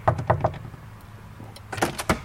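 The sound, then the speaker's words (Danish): Knocking on a door at a church's confirmation room: a quick burst of three knocks, a pause, then another short cluster of sharp raps. “Jeg banker lige på en gang.”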